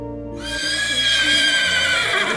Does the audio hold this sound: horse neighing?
yes